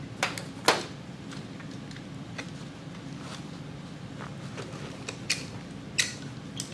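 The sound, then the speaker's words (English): Sharp, dry clicks come from a caulk gun being pumped as caulk is squeezed into a sewn-up animal body and down its legs. The clicks are irregular and fairly faint, with quiet gaps between the louder snaps. “I'm fixing to shoot some caulk up in the body and down the legs and get it everywhere I need”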